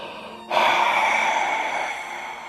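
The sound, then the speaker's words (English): A long breathy exhalation represents the divine breath moving over the waters of chaos. It begins abruptly, holds a steady airy hiss, then slowly eases off, heard alone without talk. “a better translation is the breath of God, moves over the face of the waters of chaos. So what do we hear in the Bible? The first sound is simply”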